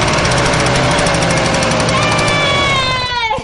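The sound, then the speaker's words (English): A Vespa scooter engine runs after being reassembled following a fuel-line repair, giving a loud, steady, buzzing rattle. A higher whine emerges in the second half before the sound cuts off. “Jeff reassembles Jackie's Vespa. A few scooterists offer advice or laugh about the last time they had to fix a fuel line. I'm just going to start this up real quick, make sure that it wants to...”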